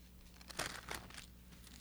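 Pages of a Bible rustle as it is handled, a soft papery crinkling with two stronger bursts in the middle against a quiet hum.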